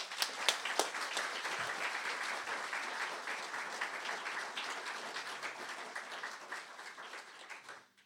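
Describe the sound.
A church audience gives a speaker warm welcoming applause. Dense, continuous clapping holds steady for several seconds, then tapers off at the end.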